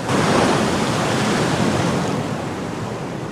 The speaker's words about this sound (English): Waves roll into the shore.